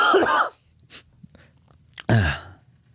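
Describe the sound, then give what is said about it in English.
Two harsh coughs, the first near the start and the second after a quiet gap of about a second and a half, both fairly loud with no talk between them. “Can you not cough while I'm talking to Siri?”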